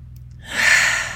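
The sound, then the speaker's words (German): A deep inhalation during a guided relaxation exercise with hands on the heart and eyes closed: a soft, airy rush that swells in after a brief quiet start and holds steady to the end. “Legt mal eure Hände auf euer Herz und schließt für einen ganz kurzen Moment eure Augen. Atme tief ein”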